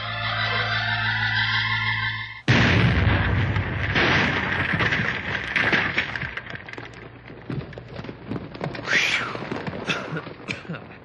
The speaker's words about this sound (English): get all set up at the end on Tunnel B there. We'll blast as soon as you're ready.